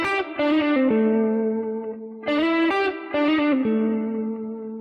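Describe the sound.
Guitar blues lick played with a bright, effected tone: a slide and a pull-off step down onto a sustained low root note at the seventh fret. The phrase comes a few times, each ending in a ringing, fading root.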